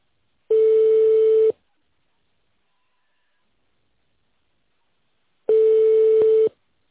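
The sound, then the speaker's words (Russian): Telephone line signal tone: two steady one-second beeps at a single mid-low pitch, separated by roughly four seconds of silence, with no voices. “Please hold on for answer or call back later. The number is busy.”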